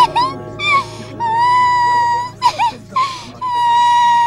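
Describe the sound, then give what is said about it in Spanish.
A woman performs a medium-grade crying demonstration, imitating mourning wails: several high, sustained wavering cries broken by short sobbing gasps, loud and alone without ordinary talk. “Tengo muchos tipos de llanto. Llanto estándar. Llanto medium.”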